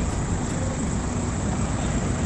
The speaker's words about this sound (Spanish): Se siente el ruido del motor del colectivo.